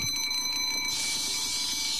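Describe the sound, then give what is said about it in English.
An alarm clock ringing nonstop, a steady, loud, high bell tone that shifts into a denser, harsher jangle partway through, with no voices. “I think this clock needs a timeout.”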